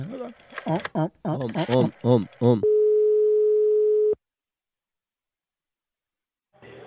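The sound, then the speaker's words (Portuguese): A telephone dial tone sounds just before a call: a single steady mid-pitched hum lasting about a second and a half. It follows a stretch of talk, then cuts off into silence. “agora, eu vou ligar daquele jeito, na medida. Homem. Ligar pra Delmira.”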